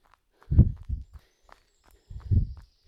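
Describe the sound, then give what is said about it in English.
Footsteps of a brisk walk in the early morning: a few soft, low thuds in uneven steps, with a short quiet gap between them. “And time to walk. Well done. Nice brisk walk.”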